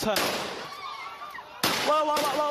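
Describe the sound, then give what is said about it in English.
Gunshots fired by a police officer during a clash with protesters in Hong Kong, a few sharp, loud bangs amid shouting voices. “A police officer attempting to subdue one protester, three shots are fired, and the 21-year-old falls to the ground, shot in the abdomen at point-blank range.”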